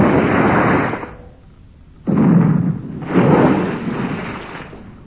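Gun firing as a radio drama sound effect: a few heavy, loud booming blasts with rough rumbling tails that trail off between them.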